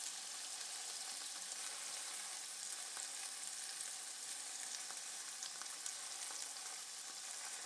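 Pork sizzling in a frying pan: a low, steady crackle of frying fat with occasional small pops, unbroken throughout.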